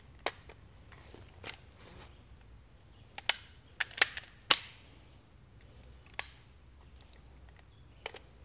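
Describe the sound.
Gunshots fired at a green target sound as several sharp, short cracks at irregular intervals, some grouped close together in the middle. They are fairly faint over a low, steady background hum.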